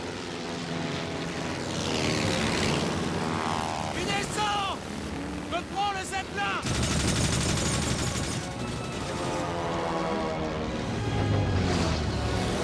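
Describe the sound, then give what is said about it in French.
Machine guns fire incendiary bullets at a zeppelin in a dramatized wartime air scene: rapid, dense bursts over a droning propeller aircraft engine, loud throughout, with voices mixed in. “Armez vos mitrailleuses de balles incendiaires. Il faudra en tirer des centaines pour abattre un zeppelin.”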